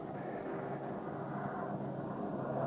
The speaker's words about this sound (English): And got a bunch of planes taking off around here.